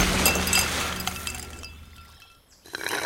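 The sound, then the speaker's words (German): Ice cubes clink and rattle in a glass of lemonade, a loud bright clatter at first that fades over a couple of seconds, with a faint clink near the end. “Willst du noch mehr Eiswürfel, Oskar?”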